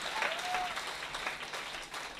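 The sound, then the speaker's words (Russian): Church audience applauding: a dense, steady wash of clapping that holds at an even level from start to finish, with no clear voices above it. “Let's give the Lord a Давайте воздадим Богу аплодисменты.”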